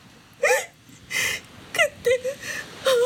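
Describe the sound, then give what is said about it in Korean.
A person crying, with several short, wavering high-pitched sobs and catching breaths in an uneven rhythm, fairly loud and without clear words. “괜찮아. 왜 울어?”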